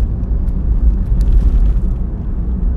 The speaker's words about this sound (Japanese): 今ちょっと私1人で運転中ドライブ中でございます